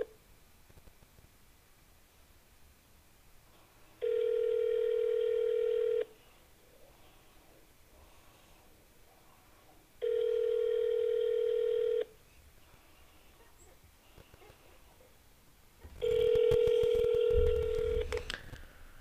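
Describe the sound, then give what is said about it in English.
A phone call ringing out with no answer: three evenly spaced ringback tones, each about two seconds long with quiet gaps between, the last one louder and rougher, over low background noise. “Time to call. See if he answers.”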